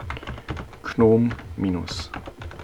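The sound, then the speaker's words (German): Typing on a computer keyboard to enter a command, with quick irregular key clicks throughout and a brief voice speaking over them in the middle. “Ebenso kann ich Alt und F2 gleichzeitig tätigen und ich tippe ein”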